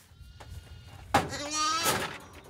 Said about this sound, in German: Hier haben wir ein frisch geborenes Lamm da vorne